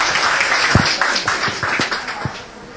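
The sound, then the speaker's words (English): Applause for a woman invited up to speak: a group claps steadily in a dense, even patter, with a few sharper individual claps standing out. “How about we have the... We got one? Yay! Give her a hand.”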